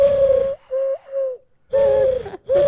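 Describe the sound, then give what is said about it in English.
A person imitates a bird call by blowing into cupped hands, making a few hollow, breathy, cooing hoots at a steady mid pitch. The second hoot is softer and wavers, with short gaps between the notes. “Can you do a bird call?”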